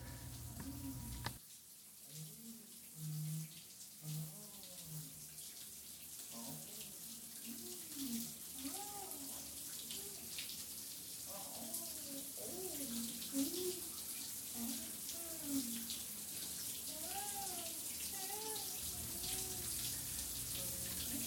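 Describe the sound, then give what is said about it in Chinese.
Running water from a bedroom deep inside a house, a steady hiss like a tap or shower that continues throughout, with voices and bursts of girls' laughter rising over it. “但仔细一听却听到屋内的深处的卧房传来了水声与女孩子的嬉笑声。”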